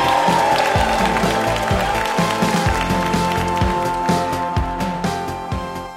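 Audience applause and cheering for a guest actress: loud, dense clapping that holds steady, with some whoops mixed in, then tails off slightly at the end.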